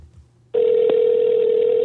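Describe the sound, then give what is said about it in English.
Telephone tone as a call is placed: after a moment of near quiet, a loud, steady electronic tone starts abruptly and holds unbroken at one pitch to the end. “I'm going to call up someone to get them on the phone and we can chop it up about everything that's going on in the world of wrestling this week.”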